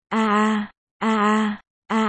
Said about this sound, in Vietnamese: Tiếng nàng rên khi lên đỉnh.